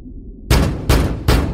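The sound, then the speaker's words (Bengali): Loud banging on an iron door: three heavy booming thuds in steady succession, each ringing on briefly, with no voices. “ঘুমটা ভাঙল একটা বিকট শব্দে, কে যেন লোহার দরজা ধরে দুম দুম করে ধাক্কা দিচ্ছে।”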